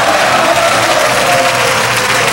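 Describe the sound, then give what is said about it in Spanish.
Church audience clapping hands in praise at a Spanish-language worship service: loud, dense, continuous clapping mixed with crowd noise, with no pause throughout. “¿Cuántos pueden darle palmas al Señor? Palmas. Alabanza para el Señor.”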